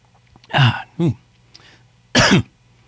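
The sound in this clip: Coughing and throat clearing from a dry throat: three loud, rough bursts with a fainter one between them, separated by short pauses, and no words spoken.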